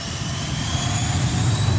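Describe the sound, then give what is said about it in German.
A Learjet takes off from the US Army airfield at Wiesbaden-Erbenheim. It makes a steady, loud jet roar with a deep low rumble and a thin high whine throughout, with no voices. “Hier hebt ein Learjet ab.”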